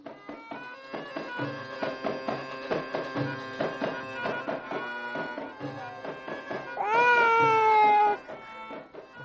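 A baby girl cries in a radio drama, a loud wavering wail near the end that slides downward in pitch, over a busy background of softer sustained tones.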